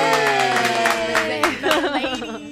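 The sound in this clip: A studio audience claps and cheers to welcome a guest on a hip-hop chat show, with quick clapping and whoops over sustained musical tones and voices.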